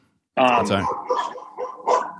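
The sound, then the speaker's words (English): A few loud, harmonic dog barks inside a house, in short bursts separated by brief gaps, with a voice mixed in. “Wait, so sorry about my dogs.”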